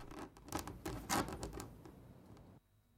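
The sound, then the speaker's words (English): Stiff fingernails scratch spasmodically at a bare wood floor in quiet, irregular rasping bursts. The scraping comes in uneven strokes, peaks partway through and then stops. “A twitching hand slumps to the floor, the nails of its stiff fingers scratching spasmodically at the bare wood.”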